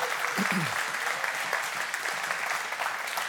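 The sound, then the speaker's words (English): Applause from a church audience thanking its board forms a steady round of clapping. It sounds full and even throughout, with no clear break. “We appreciate Bob and the board and all of their, would you give them a round of applause”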